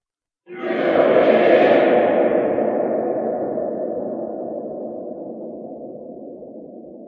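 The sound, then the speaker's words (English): A recording played through a silo blooms into a dense, hollow wash of long natural reverb. It starts abruptly, then fades slowly over about six seconds with no voices. “Just a bit of reverb. Yeah. And that's not digital reverb, man. Yeah, that's real, real reverb.”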